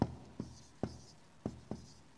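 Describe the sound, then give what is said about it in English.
Quiet handwriting strokes on a page, five distinct pen scratches separated by short pauses, with no talking. “I hope you can read my writing.”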